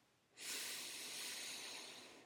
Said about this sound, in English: Let's just take a deep breath together.